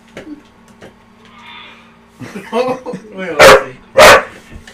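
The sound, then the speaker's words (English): A dog barks twice, loud and sharp, close together near the end, after a stretch of excited human voices and a few softer yelps or noises. “Damn, dog got crazy now.”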